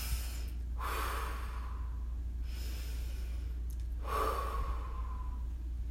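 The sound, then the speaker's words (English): Slow breathing, in through the nose and out through the mouth, as two unhurried breath cycles of soft airy rushes over a steady low hum, without speech. “And just breathe in through your nose, out through your mouth.”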